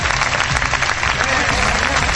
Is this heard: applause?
yes